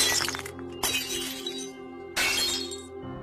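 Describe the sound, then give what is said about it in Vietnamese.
A glass mirror shatters after being struck by a flicked coin. A few loud, bright crashes of breaking glass come in separate bursts, each trailing into tinkling shards. “Tôi búng một đồng tiền xu bay theo, chỉ thấy xoảng một cái, đồng tiền xu phá tan luôn cả tấm gương ở ngay trên không trung.”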